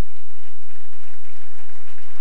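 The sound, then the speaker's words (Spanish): Loud, sustained audience applause, a thick, unbroken roar of clapping that holds steady for the whole clip. “Denle un aplauso al rey.”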